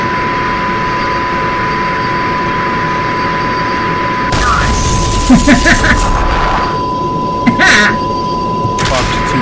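Missiles fired and exploding in a flight combat video game: a constant lock-on tone, then a sudden surge of rushing noise with a few sharp bursts of blasts.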